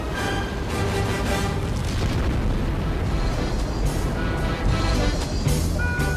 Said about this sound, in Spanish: ¡Enciendan los motores! ¡Despegamos!